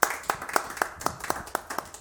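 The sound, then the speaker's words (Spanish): Steady, evenly spaced clapping greets Orlando Canseco Román at a fifth-anniversary event. The sharp, crisp claps fall in a regular rhythm, moderately loud and with no voices. “Un aplauso.”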